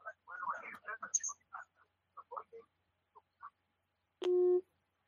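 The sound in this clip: A short telephone tone follows after a call is cut off. One steady beep comes right after a stretch of choppy talk.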